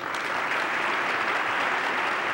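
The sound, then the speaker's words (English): Applause fills the chamber during a presidential State of the Union address, coming from both sides of the aisle: a fairly faint, even wash of many hands clapping that holds steady throughout without rising or fading. “That applause came from both sides of the partisan aisle.”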